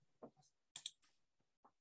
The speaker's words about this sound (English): Maybe click out of the setback die and then roll again.